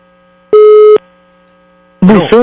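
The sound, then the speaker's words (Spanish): A telephone call going to voicemail: one steady, mid-pitched electronic tone lasts about half a second, followed after a pause by a short burst of voice. “me mandó al buzón”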